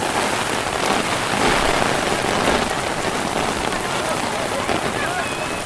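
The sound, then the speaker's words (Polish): Heavy rain pours outdoors around a tree, a dense, loud, unbroken patter of drops hitting surfaces that stays constant from start to finish. “Co, tam pada czy nie pada pod tym drzewem? Wydaje mi się, że to już jest taki deszcz, że nie robi różnicy tak naprawdę.”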